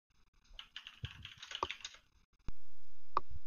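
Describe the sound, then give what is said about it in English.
Clicks of typing on a computer keyboard: a few irregular keystrokes, sharp and moderately loud, with no talk over them. “What's he typing?”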